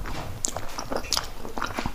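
Biting and chewing on untoasted toast bread spread with meat salad, a series of soft, moist bites and chews with no talk.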